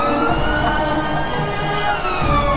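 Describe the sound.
A police jeep's siren wails steadily and loudly without a break, its tone drifting slowly downward over the whole stretch.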